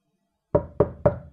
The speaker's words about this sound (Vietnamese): Lần này không phải là tiếng bước chân, mà là tiếng gõ cửa.